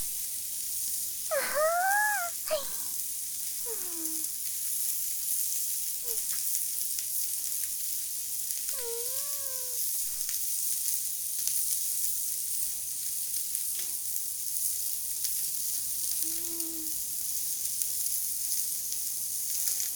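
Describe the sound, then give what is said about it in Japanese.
Beef kalbi skewers sizzling on a grill, a loud, dense crackling sizzle from the fat that carries on steadily for the whole twenty seconds. “うわ、いい音。カルビは油が多いからジュワーって音が大きいですよね。”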